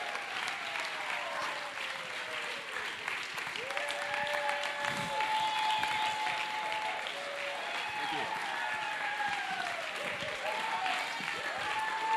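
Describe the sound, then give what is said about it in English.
An audience gives steady applause, with some cheering mixed in, as guests arrive at an event and people stand to welcome them. “And I think right now we need to give them a massive round of applause as they come. Can you welcome these guys? Why don't we stand to our feet? Give it up for our guests.”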